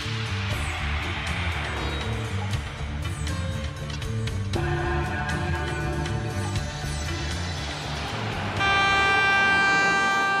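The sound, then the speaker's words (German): A small bright-red locomotive pulling a single carriage at a rural station in Hungary: a steady, dense mechanical rumble with clanking and rattling, then a sustained, loud, tonal horn blast near the end. “Die kleine Lok ist knallrot, ein Waggon reicht für die wenigen Fahrgäste.”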